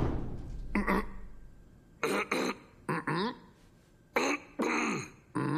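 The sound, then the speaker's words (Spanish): Short throaty coughs and throat-clearing bursts from a person in a Latin American Spanish film dub. Several separate bursts come at uneven intervals, some in quick pairs, with quiet gaps between them. “Mira, si toso una vez, yo ataco. Y si toso dos, tú atacas. Bueno, pero ¿qué pasa si yo toso de verdad?”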